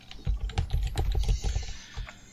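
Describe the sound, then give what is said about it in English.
Typing on a computer keyboard, a quick irregular burst of many key clicks that thins out, with a short pause before a final tap or two, fairly faint and without talk. “here I am typing the wrong things again”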